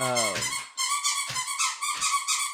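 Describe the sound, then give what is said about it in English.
A dog chewing a squeaky toy makes a rapid run of high, whiny squeaks in quick bursts that repeat almost without pause, fairly loud throughout. “The dog in the background here crushing his toy.”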